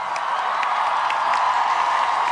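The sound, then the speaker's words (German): Applause and cheering from a crowd of over 20,000 at a school climate protest in Berlin, greeting Greta Thunberg. Dense clapping and voices form a steady, unbroken roar from start to end. “Ein Riesenapplaus für Greta Thunberg, bitte!”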